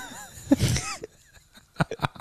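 A coughing fit of a few harsh, explosive coughs. One rough cluster comes early after brief voiced sounds, and two sharp bursts follow near the end, loud against quiet gaps.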